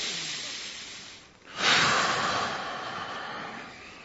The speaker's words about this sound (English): Take a couple deep breaths.